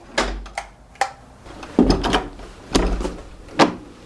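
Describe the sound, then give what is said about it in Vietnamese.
An old, worn door being shut and locked, which had to be kicked before the lock would catch, at a site in Goliad, Texas: a series of wooden clunks, knocks and mechanical rattles, spaced irregularly, with a few heavier thumps. “Rồi, cửa này cẩn thận. Hồi nãy mình phải đạp cái chân vậy đó, cho nó vô cái mới khóa được cái cửa, nó quá cũ rồi.”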